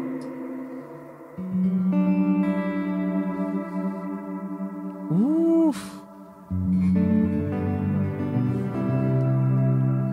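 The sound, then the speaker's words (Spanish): Sustained electric guitar chords are drenched in a long hall reverb with modulation from a Universal Audio effect, blurring into a shimmering ambient wash. One gliding, bent note appears midway. “Un hall más grande, entonces te va a dar un efecto más grande. Mira esa onda. Con el modulation encima. Ahí está el wash.”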